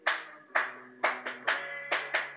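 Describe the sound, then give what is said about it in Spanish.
Someone in the street claps beneath a window: eight sharp, separate hand claps in an uneven rhythm, each ringing briefly, over faint steady tones of music playing indoors. “Perdonad esos aplausos de alguien en la calle que es medio retraso mental y se ha puesto a aplaudir en mi ventana, porque el programa no está siendo grabado en estudio.”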